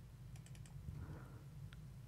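Soft clicks of typing on a computer keyboard: a few quick keystrokes in a short cluster, then one more isolated click, all faint over a steady low hum.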